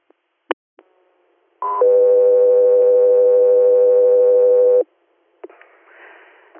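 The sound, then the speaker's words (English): Radio dispatch alert tones: a brief higher tone steps down into a long, steady lower tone lasting about three seconds. A short burst of radio static follows. “Stand by for tones.”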